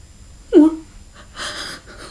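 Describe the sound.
Short wheezing breaths from a distressed, exhausted person: one tight, pitched wheeze followed by a softer, breathy rasp, both brief and set against quiet background.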